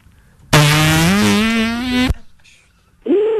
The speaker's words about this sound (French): Bon, je te fais un petit pet là.